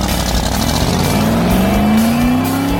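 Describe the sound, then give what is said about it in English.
A 1965 Shelby Cobra racing flat out: a loud, continuous engine roar with a whining tone that climbs steadily in pitch, holding an even, dense loudness throughout. “Now holding at pole position, going pedal to the metal, behind the wheel of his 1965 Shelby Cobra,”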